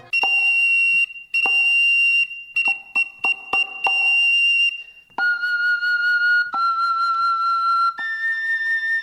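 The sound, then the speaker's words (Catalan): Flabiol and tamborí, the Catalan sardana pipe and drum: the small pipe plays bright, high sustained notes over sharp drumstick taps, then switches to longer held notes with only occasional strikes. “Així és com sona aquest flabiol i tamborí, un instrument que, doncs, és el més agut de la copla. Sonava també, ho sentíem a la percussió amb la baqueta, aquest tamborí.”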